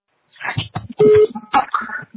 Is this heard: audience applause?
no